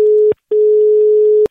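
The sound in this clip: Telephone dial tone: one steady, low-pitched tone that sounds briefly, stops for a short gap, then returns for a longer stretch before cutting off, with no voices.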